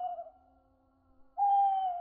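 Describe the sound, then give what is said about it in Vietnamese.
Mournful owl hooting: two drawn-out, steady-pitched hoots, the first already fading at the start, then a pause before a louder, longer hoot that holds its tone. “Tiếng cú mèo trên tầng không lại gào lên 3 tiếng ai oán.”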